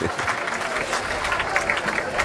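A concert audience applauds and cheers a band with cello and drums after their set. The clapping is dense and even, with a busy crowd texture that stays level throughout.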